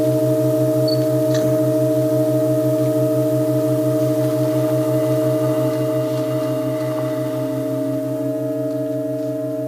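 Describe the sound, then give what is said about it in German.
Sustained seven-note organ chord from the organ in Halberstadt, a loud, steady mass of layered tones that holds without change or break for the whole stretch, with no voices. “Das war der 7-Tonklang und wie gesagt, ab 15 Uhr ist es dann der 8-Tonklang in Halberstadt.”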